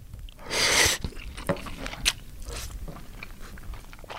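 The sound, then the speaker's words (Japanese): Eating sounds as a soft hamburg steak in fruity barbecue sauce is split with chopsticks and eaten with white rice: a brief burst of soft, wet crunching, then several faint clicks and chewing noises. “俺は一気にハンバーグを箸で割り進めながらご飯まで行きますよ”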